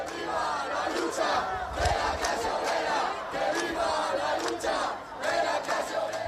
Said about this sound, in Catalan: També han increpat els acampats, que han respost en consignes des de la distància i amb un fort cordó policial per enmig.